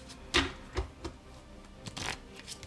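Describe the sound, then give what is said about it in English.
Action cards being dealt for a tabletop game: a few faint, soft flicks and snaps of card stock, with quiet pauses between them. “I'm going to deal them action cards.”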